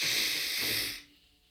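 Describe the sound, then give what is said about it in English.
A single deep breath released as one long, steady, airy hiss lasting about a second, then cutting off into near silence. “Let's take it in. Exhale it out. And a deep inhale in.”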